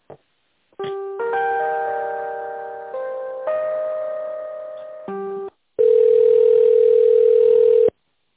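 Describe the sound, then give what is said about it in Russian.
Telephone line tones during a call transfer: a short electronic sequence of held tones at shifting pitches, then one long, steady, louder tone that cuts off abruptly. “А, все поняла, сейчас с Эдуардом соединю.”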